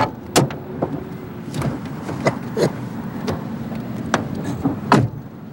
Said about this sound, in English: As he makes his way around to the driver's side, Iris rolls down the window and looks back toward the bus depot.